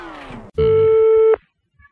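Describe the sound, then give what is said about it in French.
A single steady ringback tone sounds on an outgoing phone call placed by a radio station in Avignon. It is one loud, even electronic tone with a sudden start and stop, followed by quiet. “c'est la radio d'Avignon qui vous appelle”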